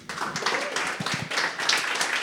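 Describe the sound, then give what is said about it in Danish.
Audience applause greets a guest introduced as a dentist at a live show in a blues bar, a dense, steady patter of many hands clapping throughout. “Mine damer og herrer, giv en stor hånd til en tandlæge.”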